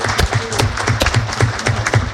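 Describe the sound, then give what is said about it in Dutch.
Applause from a meeting audience congratulating a new father rolls on steadily with dense, overlapping claps and a low hum underneath. “Dus ik denk dat een applaus wel op zijn plaats is.”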